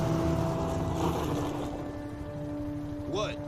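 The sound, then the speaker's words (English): An ATV engine rides in with a steady, droning mechanical hum that holds fairly even throughout, with a brief high chirping tone near the end. “Quaid rides in on an ATV with a couple gas canisters.”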